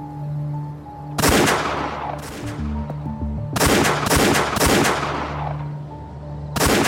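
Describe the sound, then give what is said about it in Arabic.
Gendarmes fire guns in several loud bursts of rapid, crackling shots. The bursts are separated by short gaps, and a cluster of them comes close together in the middle. “الجندرمة عم تضرب رصاص، بسرعة لك بسرعة.”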